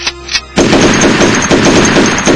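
Loud automatic gunfire from rifles of newly sworn municipal cadets in Parral erupts abruptly after a brief quieter stretch, then continues as a dense, rapid, unbroken burst to the end, with no voices.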